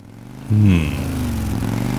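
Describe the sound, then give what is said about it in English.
A motorcycle engine revs as the bike races toward people in need of help. A loud, low rumble bursts in about half a second in, dips slightly in pitch, then settles into a steady drone. “I rev the bike and race toward the people that sound like they need help.”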